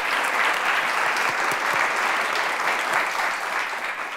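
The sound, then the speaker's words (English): Audience applause for a guest, a university president, at a live show recorded in a theater: dense, steady clapping that holds throughout and eases slightly at the end. “Our guest has been Don Christen, who is the president of SUNY at New Paltz and obviously doing a great job. Let's give him a hand.”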